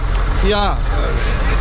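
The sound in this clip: A vehicle driving along a road, with a steady low engine rumble running throughout and a brief voice rising over it near the middle.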